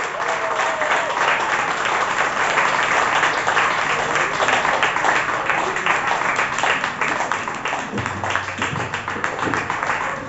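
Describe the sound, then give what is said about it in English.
An audience at an open mic poetry night applauds the evening's final poet. Dense, steady clapping continues throughout at a loud, even level. “our final poet of the night, well, the open mic portion of the evening more specifically. Y'all put your hands together for Garin!”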